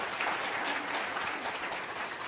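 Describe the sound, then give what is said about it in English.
A round of applause for participants at a debate event: brisk, dense clapping runs evenly through the whole clip, with no voices standing out. “Can we just have a round of applause to give them the extra confidence?”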